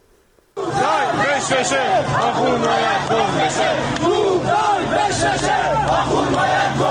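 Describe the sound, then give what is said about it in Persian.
Protesters in Qom chant anti-government slogans, a massed crowd of voices bursting in after a brief near-silence and then holding loud, steady and dense, with many overlapping shouts. “این صدای مردم معترض در قم هست که شعارهای ضد حکومتی میدن.”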